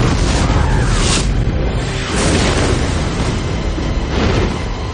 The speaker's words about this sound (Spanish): mientras los cazas sueltan los misiles sobre las tropas rebeldes. Las explosiones y suceden... acabando con todo rastro de los rebeldes.